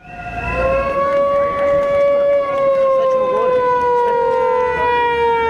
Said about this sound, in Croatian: Saveza za Srbiju je, noseći transparente i uz zvuke sirena i pištaljki, stalo na glavni ulaz zgrade Radio Televizije Srbije